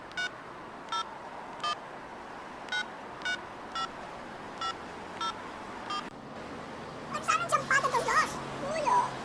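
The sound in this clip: Telephone dialing as someone keys in a number to place a call: a steady string of short, evenly spaced beep tones over faint background noise, followed by a burst of voices at the end.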